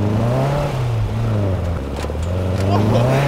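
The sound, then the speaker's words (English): A dune buggy engine drones steadily as it drives over rough terrain at night, its low, rumbling tone shifting slightly with the throttle. “The buggy's the best thing for all terrain. We are not getting stuck out here.”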